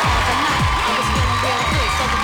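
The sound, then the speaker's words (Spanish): Crowd cheering and applause play on a morning radio show in Villahermosa, a dense, steady roar with voices shouting and whooping over it throughout. “Aplausos para los que están conectados con nosotros desde muy temprano.”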